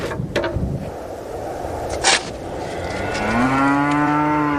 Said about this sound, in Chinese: 瘦骨嶙峋的牛羊靠着草料勉强生存